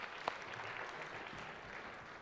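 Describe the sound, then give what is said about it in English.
Applause from an audience clapping for the actors after a short performance, a steady, fairly faint patter of many hands with no clear breaks. “Let's give a little clap for acting for us.”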